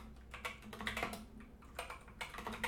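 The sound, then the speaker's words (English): Typing on a computer keyboard: many quick, faint key clicks arrive in irregular bursts with short pauses between runs, soft and unaccompanied by voices. “Oh my goodness, I can't type.”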